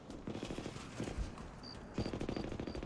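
Rapid gunfire from a multiplayer shooter video game, a fairly quiet, continuous rattle of shots with four short high beeps toward the end.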